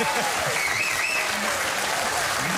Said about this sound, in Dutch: U vraagt zelf om een applaus.